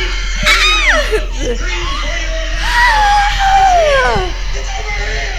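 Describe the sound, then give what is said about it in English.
A cinema audience screams at a showing of the horror film The Tingler. Loud, wavering high-pitched shrieks rise and fall, mixed with laughter and excited voices throughout. “Ladies and gentlemen, the Tingler has been paralyzed by your screaming.”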